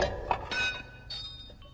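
Bright glassy clink as a paraffin lamp is thrown in a drama: a sharp hit early on, followed by thin lingering ringing tones that fade under a dull low rumble.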